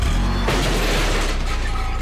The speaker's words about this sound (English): That's the sound of a car backing into a garbage can.